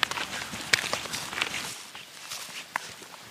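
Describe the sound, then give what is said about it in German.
Footsteps walking along a riverside path beside the Vils river near a forest, a steady series of many crunching steps in an even walking rhythm, with no voices. “an der Nabräun gelaufen, sind aus Kalmünz wieder rausgegangen und laufen jetzt schon wieder an der Vils entlang”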